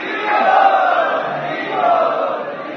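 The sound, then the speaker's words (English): An audience loudly chants in unison to welcome a guest at a gathering, a sustained crowd roar that swells twice and stays strong throughout. “So let us welcome this guest in our traditional way by loudly chanting.”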